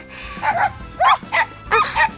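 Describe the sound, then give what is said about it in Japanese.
A dog barks a few short, bright yips in quick succession, separated by brief pauses, moderately loud with no talk over them. “ワンちゃん、応援してくれるの？”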